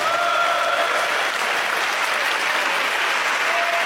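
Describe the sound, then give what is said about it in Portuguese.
An audience applauds in church, a dense, even wash of clapping that holds at a steady level for the whole clip with no voices standing out. “Podem bater palmas para Jesus, meus irmãos.”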